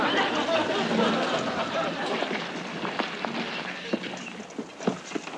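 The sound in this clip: A congested mare's hooves clip-clop as she is walked around, a run of sharp knocks that grows more distinct toward the end, with a voice talking early on.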